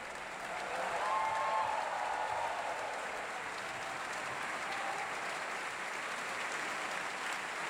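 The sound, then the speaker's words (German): Applause from an opera audience for a singer after a performance; faint, even clapping swells briefly early on, then settles into a steady, continuous patter to the end. “und großer Jubel für Peter Hoare, den Herrn Brocek.”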